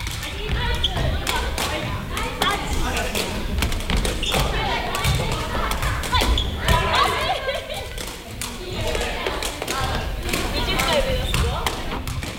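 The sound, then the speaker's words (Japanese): Repeated thumps of a sepak takraw ball kicked without hands during juggling practice. The irregular kicks come in many quick hits, with voices and chatter running underneath throughout. “ボールを持たずに蹴り続けるリフティングの練習を行います。一人ずつの練習の後は 2,3 人で組になってボールを落とさないように練習します。”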